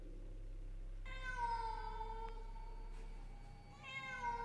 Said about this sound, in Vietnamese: liền sau đó là tiếng mèo kêu lên, âm thanh nghe ai oán não nề.